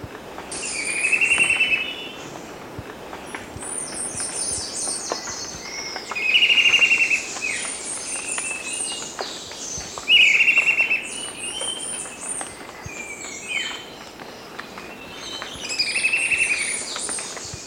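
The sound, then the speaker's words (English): A russet-crowned warbler sings in several bright, repeated bursts while other birds chirp and call steadily between its phrases. “Two, with russet-crowned warbler and others.”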